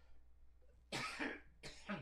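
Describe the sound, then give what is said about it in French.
A person coughing, a short run of harsh, breathy coughs in two bursts, fairly loud against a quiet, humming background, with no talk. “Bon, il fallait que je tousse, c'était pas le temps.”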